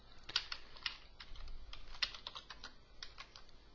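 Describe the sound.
Rapid clicking of a computer keyboard as shell commands are typed at a terminal, using the touch command and tab completion on file names; many quick keystrokes in uneven bursts, with a few sharper taps standing out, and no voices.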